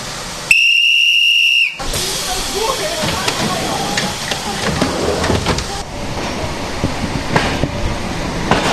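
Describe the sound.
A conductor's whistle signals a train's departure with one long, shrill, steady blast, then gives way to a continuous hissing, rumbling wash of railway noise.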